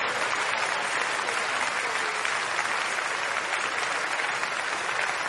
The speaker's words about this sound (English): Keep encouraging them, please. Keep clapping.